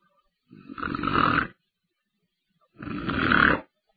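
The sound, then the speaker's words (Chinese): A storyteller's voice imitates the snoring of a sleeping man: two long, rasping snores, each growing louder before cutting off, separated by a pause of silence. “白眉徐良靠着椅子低着头睡着了，哈喇子也下来了，打呼噜声也出来”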